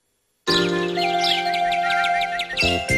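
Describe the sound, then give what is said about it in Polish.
Sparrows chirp in quick, bright, high-pitched bursts over a steady musical backing that starts abruptly, with a short chime-like phrase near the end and no talk. “Ćwierkają wróbelki od samego rana.”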